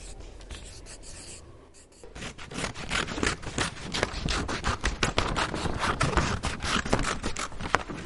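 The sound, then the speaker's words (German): Writing in class: many quick, scratchy strokes, faint at first and then steady and busier from about two seconds on. No voices. “Im Unterricht haben wir viel zu tun. Es wird geschrieben.”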